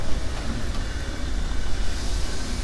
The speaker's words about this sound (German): So, die 58311 drückt jetzt den Sonderzug